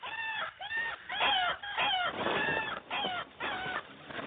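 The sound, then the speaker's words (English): Young Tyrannosaurus chicks call for food in many shrill, squawking chirps. The calls come in rapid, overlapping bursts with short pauses between them, and no talk. “3 Tyrannosaurus chicks wait, the only survivors from a clutch of 12. The moment they hear the kill, they start calling for food.”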